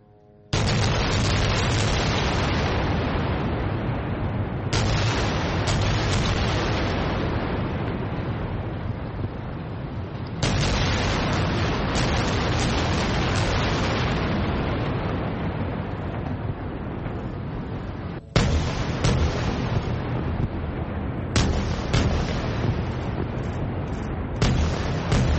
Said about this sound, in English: That's the sound of a rocket barrage into Israeli territory.